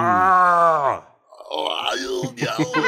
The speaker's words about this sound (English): He actually has an accent while he's just groaning.